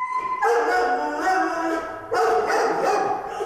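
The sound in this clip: Dogs bark and howl in a few loud, sustained bursts of yelping, howl-like calls that overlap one another.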